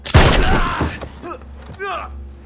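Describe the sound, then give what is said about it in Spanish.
A gunshot in a western drama film: one loud, sharp blast right at the start with a decaying tail, followed by a groaning voice. “Le dispara en una pierna.”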